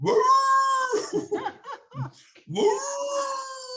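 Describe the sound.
A beagle howls at night in long, drawn-out wailing notes. A burst of choppy, broken yelps falls between the two sustained howls.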